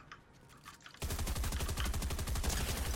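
Rapid automatic gunfire from a shooter video game: a dense, loud run of sharp shots begins abruptly after a quieter first second and continues steadily to the end.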